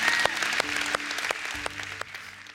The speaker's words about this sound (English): Come on, church, would you celebrate and welcome people into the family of God today?